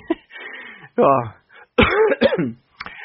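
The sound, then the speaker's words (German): A cough and throat clearing from a man who is still a little ill: short, rough, breathy bursts broken by brief silences, loud and close. “den Huster schneide ich mal nicht raus, denn ich bin tatsächlich noch ein bisschen krank.”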